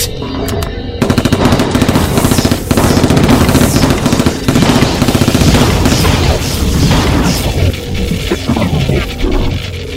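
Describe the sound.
Automatic gunfire from an H&K MP7, a lightweight polymer weapon: loud, rapid, continuous bursts of many shots running through the whole stretch.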